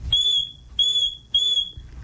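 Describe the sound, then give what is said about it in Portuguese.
Three shrill, high-pitched whistle blasts sound as an alarm signal calling for immediate help. They are evenly spaced, each short and piercing, and heard alone. “Então, um apito significa alerta, atenção. 3 apitos.”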